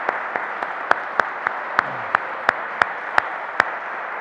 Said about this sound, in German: Applaus